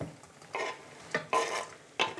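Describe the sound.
Garlic and onion fry in a pan with a soft, continuous sizzle, broken by a few louder scraping bursts of stirring; fairly quiet, with no talk.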